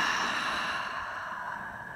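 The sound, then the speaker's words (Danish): Slow, breathy exhale during a guided stretching and breathing exercise: a soft, steady airy hiss that gradually fades over about two seconds, heard alone without talk. “Godt, tag din sidste indånding her. Og en udånding.”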